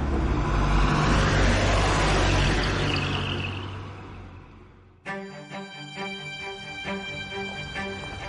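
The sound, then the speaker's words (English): A taxi drives through the night with a steady rumble of engine and road noise that gradually fades over several seconds. Music then begins. “The taxi drives on through the night, trying to get just around the corner.”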